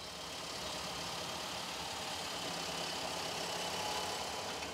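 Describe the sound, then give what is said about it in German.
A threshing machine runs while threshing hemp, giving a steady, dense mechanical drone with a rough engine-like rumble that holds an even loudness throughout, with no clear breaks or voices. “Ah, der Drescher läuft. Und drischt den Hanf.”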